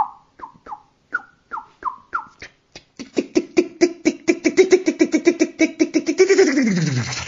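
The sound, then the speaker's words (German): A blackbird gives a run of short calls. The notes are spaced apart at first, then speed up into a fast, chattering rattle that grows louder toward the end. “verabschiedet sich die Amsel”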